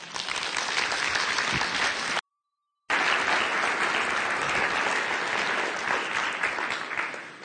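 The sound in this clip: Audience applause welcoming a speaker to the stage, a dense, steady wash of clapping that is briefly cut off partway through, then resumes at the same strength.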